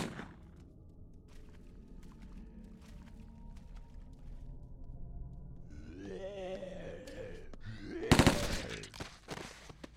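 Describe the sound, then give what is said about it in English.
MP5 burst fire in a video game: scattered faint clicks, then a loud, short burst of rapid shots near the end. “MP5 burst fire”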